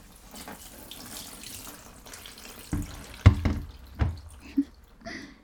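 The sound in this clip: Warm water runs from a tap during hair washing, a soft, steady splashing hiss broken by a few louder splashes and drips in the second half.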